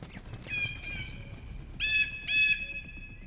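Piercing screeching cries of a grey eagle: one long drawn-out shrill call, then two more in quick succession, each high and harsh over a faint low rumble.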